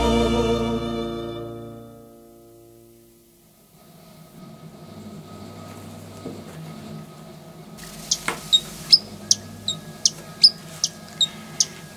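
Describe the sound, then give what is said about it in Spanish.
Quick high chirps of a tiny, very fast-moving bird singing, with many sharp notes in a rapid run over low, steady background noise in the second half. “Y ahí lo estamos escuchando, esta ave tan, tan particular, tan pequeñita, que se mueve tan pero tan rápido.”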